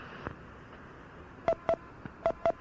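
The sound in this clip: Telephone autodial DTMF tones: four short, clear beeps in two quick pairs, over a faint steady hiss.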